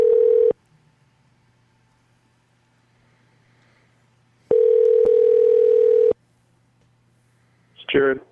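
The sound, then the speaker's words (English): A telephone number being dialed: two long, steady electronic tones separated by a few seconds of near silence, then a brief garbled burst of sound at the end. “All right, we got a number. Let's dial them up and see if they answer.”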